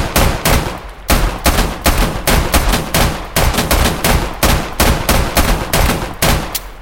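Rapid pistol gunfire from two pistols fired at a table in a video game: many loud, sharp shots in quick, fairly even succession, with no voices.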